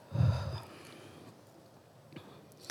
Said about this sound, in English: I always like to take a moment for us to just take a deep breath in. So join me. And out.